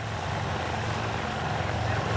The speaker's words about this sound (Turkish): bir helikopter yardımıyla arama kurtarma ekibinin indirildiği anlar ekranlarınıza geliyor. Ekranın hemen sol köşesinde bakın yukarıda helikopteri görüyorsunuz.